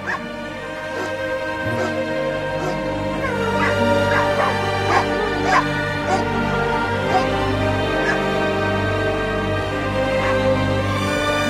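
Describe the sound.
Dogs of the Far North yip, whimper and bark in many short, high cries scattered over a dense, steady, droning background. The calls stay fairly even in loudness throughout.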